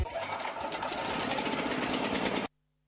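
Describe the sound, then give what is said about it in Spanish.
Power generator engine running with a loud, steady, rattling drone that holds evenly, then cuts off abruptly into silence near the end. “¿Podemos poner un aire acondicionado con este grupo? Grupo Electrógeno. Ruido y luz versus silencio y oscuridad.”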